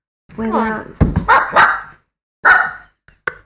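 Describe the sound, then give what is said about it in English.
A person imitates a dog barking with a few voiced woofs and sharper yips in uneven bursts: a longer first bark, then a quick cluster, another bark after a pause, and faint short sounds at the end. “That's my dog impersonation.”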